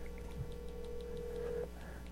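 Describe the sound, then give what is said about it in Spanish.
A faint, steady telephone tone sounds while a call is being dialed. It holds at one even pitch for about a second and a half, then cuts off, leaving low background noise. “Déjale marcar al Checo.”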